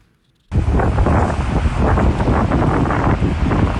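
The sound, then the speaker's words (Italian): A nighttime thunderstorm over a Swiss canton: a loud, dense, roaring rush that bursts in after a brief silence and continues unbroken. “Quello che sentite è il suono del temporale che si è abbattuto sul nostro cantone ieri notte.”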